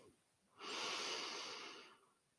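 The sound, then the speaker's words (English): A single deep breath drawn in, soft and airy, rising quickly and then holding steady for well over a second before tapering off, alone and fairly quiet. “And breathe in.”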